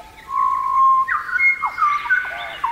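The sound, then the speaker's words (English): An Australian pied butcherbird sings a melodious, flute-like song of clear whistled notes. Long held tones are followed by short sliding and falling phrases, heard alone and without voices. “Here is the song of the pied butcher bird.”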